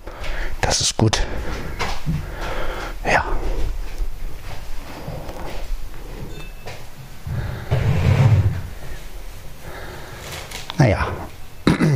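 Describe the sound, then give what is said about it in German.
A drawer being opened or shut produces a few sharp knocks and sliding scrapes over a low, steady background noise. “Schublade.”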